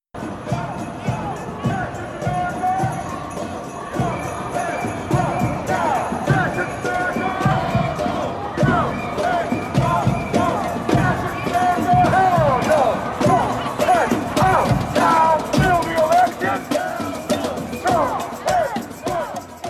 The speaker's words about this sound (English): let's, for our audience, get a taste of one of these rallies. I mentioned they're happening around the country. This is what one looked and sounded like in Chicago recently.